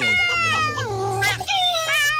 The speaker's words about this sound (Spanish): venga para acá la gatica. Vea, no le hemos puesto nombre a la gatica.